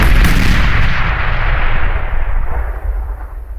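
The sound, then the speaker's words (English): Grenades exploding in a hand during a tabletop role-playing game, heard as a loud, booming burst. It opens sharply and then rolls on as a heavy, rumbling roar that slowly tapers off. “But the other two manage to hit the grenades in your hand as you turn the hand. So they go off in your hand.”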